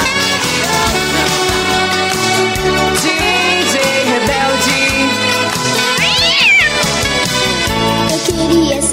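A cat meows amid loud, continuous music, with a distinct rising-then-falling cry standing out partway through over the steady beat and dense instrumental backing, at a live DJ set in a pub.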